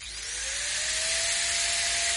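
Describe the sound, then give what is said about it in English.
Power drill drilling during DIY work: a steady high whine that rises slightly in pitch as it spins up, then holds as a continuous loud grinding drone with no talk. “Look out, I'm going to drill again. Clear.”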